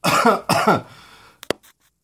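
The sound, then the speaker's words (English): Two loud, harsh coughs in quick succession, then a short quiet stretch and a few faint, brief clicks; no talk is heard. “So, coughing in your face was definitely a faux pas.”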